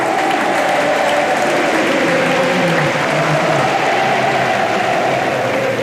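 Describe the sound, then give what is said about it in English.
A tennis crowd roars and applauds as Jannik Sinner lifts the trophy, a dense, loud, unbroken wash of clapping and voices that holds steady throughout. “Sentite il pubblico, sentite il pubblico che invoca il suo nome. Stringe la coppa Yannick Sinner.”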